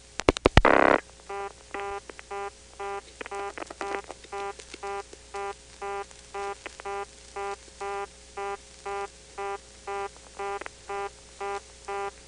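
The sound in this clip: Telephone signaling tones on a wire trunk line: a few loud bursts open, then many short multi-tone pulses repeat in a steady, even rhythm.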